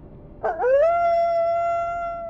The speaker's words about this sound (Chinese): 岔路上突然回荡起可怕的嚎叫声，一只八条腿的巨大狼形生物扑在罗宁身上。